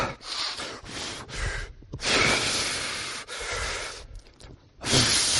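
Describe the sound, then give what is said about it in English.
A voice imitates someone catching their breath after hard work: a run of loud, rough, breathy gasps and exhales in uneven bursts, with short gaps between them and no words. “And that word refreshed literally says this, he caught his breath. Think about it. Moses is trying to paint a picture where you imagine God like this.”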